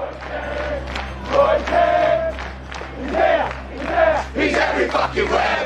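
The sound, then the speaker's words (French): Football supporters chant together in a stadium crowd: a loud, sustained sung roar of many voices that swells and dips in waves throughout. “Donc, c'est les chants des supporters, en fait, qui accueillent à chaque fois les joueurs dans le stade.”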